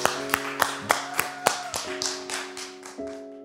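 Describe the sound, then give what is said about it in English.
A church audience claps to welcome a guest pastor as speaker. Many evenly spaced claps come about three per second, sharp and moderately loud, over sustained musical tones. “Let's give him a big hand together today.”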